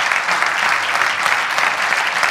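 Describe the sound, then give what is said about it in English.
A church audience applauds a newly honored couple with steady, dense clapping that holds at an even level from start to finish, with no voices over it. “let's just give them a round of applause”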